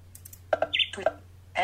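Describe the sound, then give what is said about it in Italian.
Sharp clicks come from a button being pressed on a small device with a ring-shaped scroll wheel. A couple of quick clicks are followed by a few softer taps and a brief high beep, and a voice speaks briefly at the end. “Per poter leggere meglio dovrei alzare un po' il volume, per cui vado di nuovo, premo il tasto, l'anello.”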